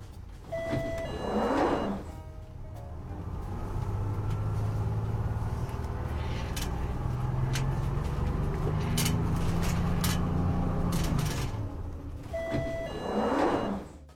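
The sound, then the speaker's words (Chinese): A bus pulling into a stop before its doors open, a low steady engine rumble running throughout, with a short tone and an airy hiss near the start and again near the end. “客车到站。注意，车门即将打开。”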